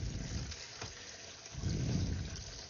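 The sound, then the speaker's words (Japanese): Water rushes steadily into a washing machine as it fills, a continuous hissing, splashing flow that swells louder toward the end. “洗濯回していきます。”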